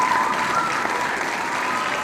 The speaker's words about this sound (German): Ja, Drumroll, Applaus, alles. Genau, hier ein virtueller Applaus, den müssen wir vielleicht noch einspielen.